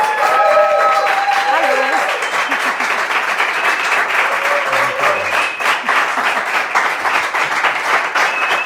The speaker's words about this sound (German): Wie früher, ich wollte gerade sagen, so viel Applaus bist du ja gewohnt